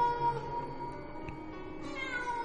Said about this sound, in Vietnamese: Là tiếng con mèo rừng hay là mèo nhà thì chẳng biết, thế nhưng tiếng kêu của nó kêu lên ghê rợn lắm.